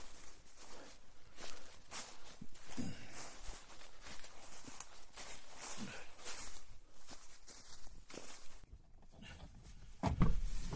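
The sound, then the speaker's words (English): Footsteps of someone walking near an old graveyard, a long run of faint, steady, evenly spaced steps that stay at an even pace throughout. “Me walking.”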